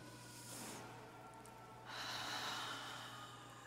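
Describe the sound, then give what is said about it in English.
A deep breath taken in a church setting: a long, steady airy rush of breath that swells into a louder, fuller second stretch, with no talking over it. “I'm going to invite you also to take a deep breath.”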